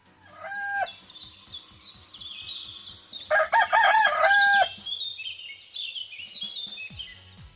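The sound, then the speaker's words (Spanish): A rooster crows within an upbeat, humorous song: one loud, harmonic cock-a-doodle-doo stands out over a steady rhythmic beat. “están escuchando por ahí un gallo”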